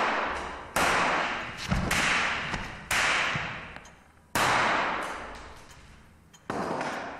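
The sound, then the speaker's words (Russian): Shots from a small ladies' pistol fired at a man indoors: several sharp cracks spaced irregularly, each followed by a long, slowly fading tail. “Все пули попали в тело мужчины. Он падает на стул.”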